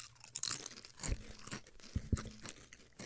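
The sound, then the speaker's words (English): Crunching and chewing on a crisp, oily, pita-chip-like snack: several sharp, uneven crunches at an irregular pace, fairly faint, with no talk. “Kind of just tastes like a pita chip. A lot of oil.”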